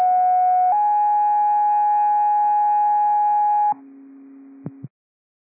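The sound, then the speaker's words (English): Fire dispatch cancellation tones come over the radio: a loud, steady tone that shifts slightly near the start, then a lower, quieter tone with a brief blip before it cuts off abruptly. “these are cancellation tones.”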